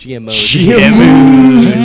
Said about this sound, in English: Those cows, GM cows. That's GM cows.